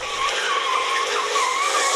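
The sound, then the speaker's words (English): Tires squeal as a friend's Mazda MX5 does donuts and drifts in a car park, a loud, continuous screech whose pitch wavers slightly throughout. “That's just some doing some donuts and things in a friend's MX5 when we were at a car park.”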